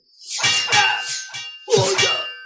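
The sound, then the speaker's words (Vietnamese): Arrows thud into makeshift shields built from wooden cart planks, giving dull, metallic-sounding clangs. Several heavy hits land in two clusters, and each hit carries a lingering ringing tone. “Những mũi tên cắm phập vào cái đám thuẫn đơn giản phát ra âm thanh nghe như là tiếng kim loại va chạm trầm đục.”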